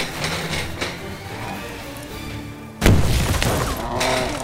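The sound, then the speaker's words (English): Pipe bomb detonating at a creature's feet: light rustling and a few soft knocks give way to one sudden, loud blast about two-thirds through, followed by a rumbling, crackling tail. “Light it, Saul! Light that pipe bomb! I think this is our last one! Well, then make it count! Put it right at its feet! Get down!”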